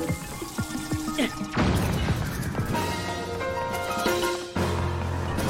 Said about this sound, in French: Il a fait des dégâts la bombe.